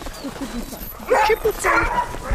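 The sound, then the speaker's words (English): Sled dogs yelp and whine restlessly while the team is hooked into harnesses, giving high, thin whimpers and short yips that overlap and grow louder partway through. “The other dogs can't stay still. They're pacing and pulling, yelping and whining.”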